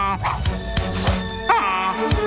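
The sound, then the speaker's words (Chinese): A person imitates the cries of a wild goose in trouble, letting out a few strained, honking squawks with strong, harmonic, voice-like tones. “看我用拿手绝活，模仿野鹅遇到麻烦时的叫声，把狗狗们引开。”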